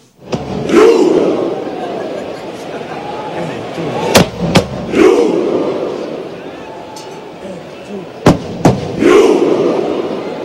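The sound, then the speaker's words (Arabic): Norwegian football fans at a friendly match against Morocco roar in unison, imitating the ship scene from the Vikings series. The crowd shout repeats three times, with pairs of sharp thumps between the shouts. “خلال مباراة ودية مع المغرب قام جمهور النرويج بتقليد مشهد السفن من المسلسل الشهير فايكينغز لتحميس الجمهور وكتحية للمسلسل التاريخي”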